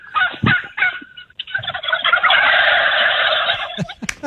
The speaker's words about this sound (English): No, those are the birds. I hear the birds in the background.